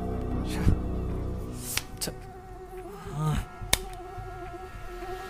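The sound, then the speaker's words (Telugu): A mosquito's thin, steady whining buzz fills a quiet night as someone tries to sleep, its tone holding level with a few sharp clicks breaking over it. “దోమ ఆ దోమ వల్ల ప్రేమ్ నిద్ర మాయమైపోయింది”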